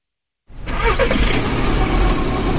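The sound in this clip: Car engine starting abruptly after a brief silence, then settling into a steady mid-pitched running rumble as the car sets off on an early-morning drive out of the city.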